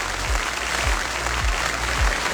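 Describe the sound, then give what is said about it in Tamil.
Sustained audience applause opening a stage show of artists' performances, a dense, even wash of clapping that holds steady at moderate loudness throughout, with no voices over it. “ஒரு பலத்த கைத்தட்டரோட நிகழ்ச்சியை தொடங்கிடலாம்.”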